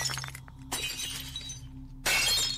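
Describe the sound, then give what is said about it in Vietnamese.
Four glass mirrors hanging on a wall shatter in loud, bright crashes of breaking glass. Several bursts of splintering and tinkling sound over a steady low hum, and the final burst is the loudest. “Ở trong nhà bỗng nhiên loảng xoảng, bốn cái gương treo ở góc tường vỡ tan tành, âm thanh nghe đến chói tai.”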